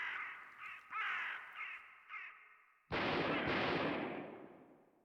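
Ravens cawing, several harsh caws in an uneven series, followed by one sudden loud gunshot-like blast that lingers and slowly fades.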